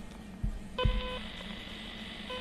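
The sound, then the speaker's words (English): DTMF tones keyed on a handheld radio's telephone-style touch keypad to dial a repeater station number: short electronic beeps, the last cut off at the end, with soft low thuds of button presses. “on the touch keypad here, which is a bit like a telephone keypad, the number of the station that I want to connect to. I'll just do one now. So this looks like a phone, like a handheld phone.”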